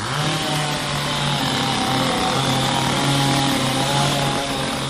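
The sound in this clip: A chainsaw engine runs at a steady pace, giving off a continuous loud buzzing drone with a low purring undertone that holds even throughout, without pauses or revving.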